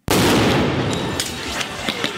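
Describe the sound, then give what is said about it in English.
Sharp bangs of flashbang grenades and tear gas launched by police into a crowd of protesters at a justice center, a dense, loud burst of noise with a few sharp cracks that stays intense throughout. “The Portland police arrived a little bit later and began showering the crowd with tear gas and flashbang grenades.”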